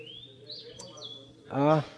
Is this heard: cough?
no